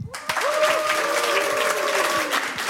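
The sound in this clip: A live audience bursts into applause, with many hands clapping in a dense, even patter. The clapping stays loud and steady for a few seconds before it tapers slightly at the end.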